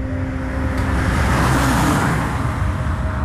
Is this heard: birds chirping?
no

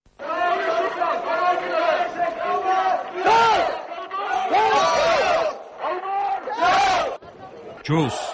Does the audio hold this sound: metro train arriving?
no

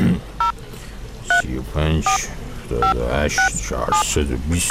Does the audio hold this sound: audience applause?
no

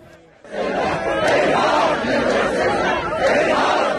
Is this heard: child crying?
no

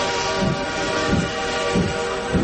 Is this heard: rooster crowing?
no

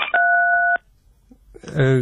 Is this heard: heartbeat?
no

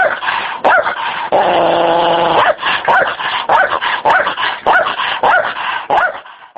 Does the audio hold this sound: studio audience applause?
no

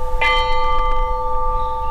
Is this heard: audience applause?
no

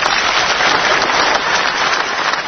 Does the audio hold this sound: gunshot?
no

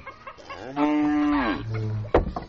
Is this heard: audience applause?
no

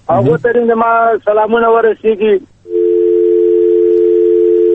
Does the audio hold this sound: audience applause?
no

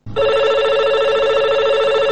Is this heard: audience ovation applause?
no

